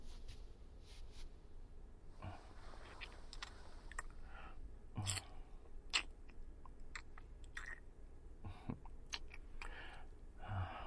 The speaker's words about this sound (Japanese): 味見するよ。